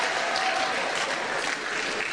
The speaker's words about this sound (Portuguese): Come on, put your hands together for the Lord. Palmas para o Senhor.